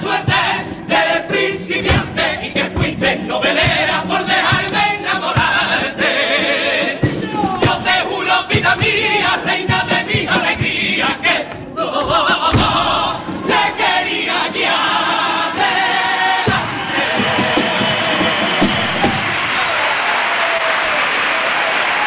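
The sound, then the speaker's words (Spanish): A standing audience at the Cádiz Carnival contest applauds and cheers a comparsa's opening pasodoble, with loud sustained clapping mixed with shouting voices that carries on for many seconds. “Pues parte del público que se pone en pie para premiar este primero de los pasodobles, el pasodoble de presentación”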